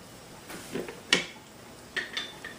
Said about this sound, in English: pigeon peas, which are washed, which are rinsed and drained. into the mixture. Give it a good stir.